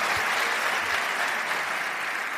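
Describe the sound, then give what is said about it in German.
Dense, steady applause from the audience at a sold-out live show, a continuous even wash of many hands clapping at full volume for the whole stretch, with no talk above it. “Erstmal Applaus für euch selber.”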